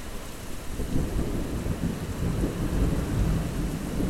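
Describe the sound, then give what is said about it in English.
Nighttime thunderstorm over a beach: dense, steady rain hiss with deep, rolling thunder rumbling underneath throughout, loud and continuous with no voices. “And nightfall, and then a huge honking thunderstorm.”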